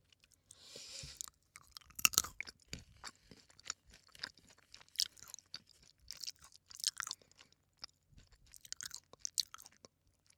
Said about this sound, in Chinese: 你们好怪啊，老喜欢听我吃东西。